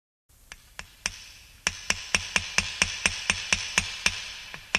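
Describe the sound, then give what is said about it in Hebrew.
A hammer drives nails into the wooden side walls of a sukkah with many sharp, evenly spaced blows. The strikes start sparse, then settle into a quick, steady rhythm. “החזיקו חזק ילדים, עוד כמה מסמרים, זהו, גמרנו.”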